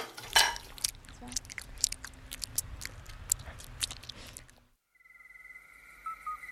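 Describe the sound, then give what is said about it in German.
Crunching and chewing as people eat a snack before a night hike, irregular crisp bites and mouth noises for about four seconds before the eating stops. “Komm, wir essen jetzt noch mal was, bevor die Nachtwanderung losgeht.”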